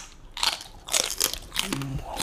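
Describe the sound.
Crisp crunches as people bite into chili peppers: a few sharp, crackly bites in quick succession, fairly loud and with no voices.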